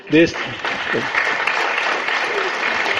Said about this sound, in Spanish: Efectivamente, todos aplaudimos esta decisión unánime del Consejo Universitario